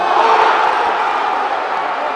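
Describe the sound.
A packed hometown stadium crowd cheers Barry Bonds' record 756th home run in the fifth inning, a loud, steady roar of voices and whoops held throughout.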